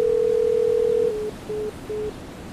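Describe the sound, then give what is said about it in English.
Phone tones during a speed dial: a steady single-pitched tone lasting about a second, then three short beeps at the same pitch with brief gaps, over constant background hiss. “With my left hand, I speed dial Dave.”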